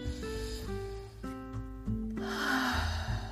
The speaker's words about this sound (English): Place your hand over your heart and take a deep breath and breathe.